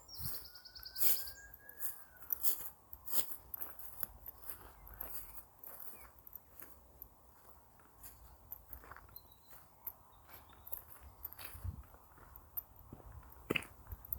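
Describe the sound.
Footsteps of someone walking outdoors while searching for ladybirds, with faint, irregular steps and scattered bird chirps, including a rising whistled call near the start.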